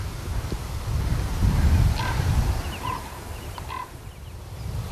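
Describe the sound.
Creaking calls of a large black bird with a big beak, a few short, hoarse harmonic cries rising over steady, rumbling wind noise.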